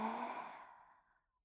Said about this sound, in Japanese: ゆっくり深呼吸をしていきましょう。吸って